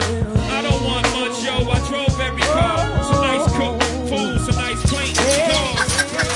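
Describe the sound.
Chickens clucking from a chicken machine in a video game, irregular, chirpy clucks scattered over a steady, repeating low background sound.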